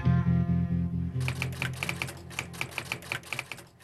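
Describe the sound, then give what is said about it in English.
A nurse types on a keyboard in a reception office, a quick, uneven run of many crisp key clicks that begins after a short pause, over a low steady hum. “In the reception office, the nurse types a...”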